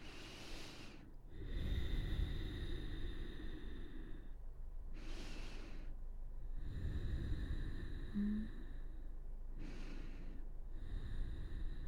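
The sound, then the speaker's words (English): Deep, massive yoga breaths are taken while holding a balancing stretch: a few slow, soft, airy inhales and exhales, each a long rush of breath separated by quieter gaps, with no talking. “we're going to take about 3 more massive breaths right in this position.”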